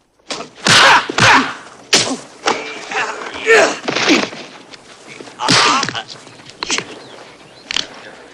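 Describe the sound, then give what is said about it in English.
Blows and stamping in a fistfight as a hulking man takes on four attackers, with a run of heavy thuds and sharp smacks at an uneven rhythm, mixed with vocal sounds. “The first is dispatched with several blows, dumped, and Bolo stamps on him.”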